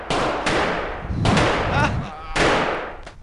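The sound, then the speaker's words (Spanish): A burst of gunfire in a radio drama: a few sharp, loud bangs in quick succession over a dense, rumbling wash of noise, with voices mixed in. “¡Hemos cosido a balazos al maldito terrorista!”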